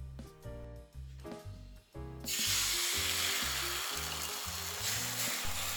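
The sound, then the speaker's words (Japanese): Egg for tamagoyaki, a Japanese rolled omelette, meets a hot pan and a loud, steady sizzle bursts in partway through and carries on to the end, with rhythmic music playing throughout. “次は卵焼き。今日は上手にできるかな。”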